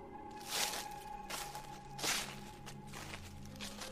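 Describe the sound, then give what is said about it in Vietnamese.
Strange rustling footsteps shuffle outside at night, a faint series of several soft, scraping bursts at uneven intervals over quiet background. “những tiếng đi lại kỳ dị ở ngoài kia lại tiếp tục vang lên sột xà sột soạt”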